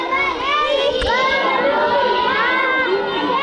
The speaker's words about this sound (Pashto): دا د پیښور په خزانه کې د افغان کډوالو د کیمپ په یو سرکاري پرایمري سکول کې زده کړې روانې دي.